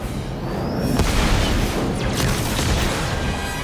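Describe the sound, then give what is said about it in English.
Small spaceships exchange fire near a large enemy ship in a sci-fi space battle: a loud, dense rumbling roar with sharp blasts and crackling bursts cutting through it. “Fighters speed toward the Covenant ship. The smaller ships continue to exchange fire.”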